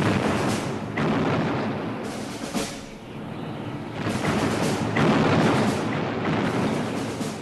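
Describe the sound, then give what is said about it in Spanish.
Artillery fire from cannons in a battle between Austrian and Russian forces and the French: a dense, continuous roar of booming blasts, with several sharper bursts rising above the rumble and no voices. “Un intenso duelo artillero.”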